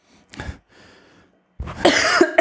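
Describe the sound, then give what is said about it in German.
A person coughing: a short cough, then a longer, louder, harsh burst of coughing with a rough, throat-clearing edge. “wenn du husten, musst du husten.”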